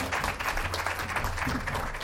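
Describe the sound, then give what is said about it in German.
Applause from an audience at a baptism service welcoming those about to be baptized: a dense, steady clapping that holds at an even level throughout. “Creo que los podemos recibir otra vez con un fuerte aplauso. Ich denke, können sie nochmal mit einem starken Applaus empfangen.”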